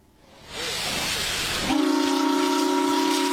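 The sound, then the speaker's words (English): A steam whistle sounds on an almost 120-year-old paddle steamer, restored and returning to service on the Murray River out of Morgan, South Australia. A rushing hiss of steam swells first, then a loud, steady, sustained whistle tone takes over. “The sound of history coming back to life as an almost 120-year-old paddle steamer returns to service following years of volunteer work.”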